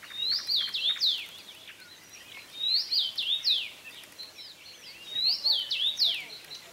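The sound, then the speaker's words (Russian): Common rosefinch song played from a recording: three evenly spaced phrases of clear, slurred whistled notes, bright and fairly loud over a faint steady hiss. “Нет, чечевица – такая очень классная птичка. Сейчас я даже могу попробовать ее тебе включить.”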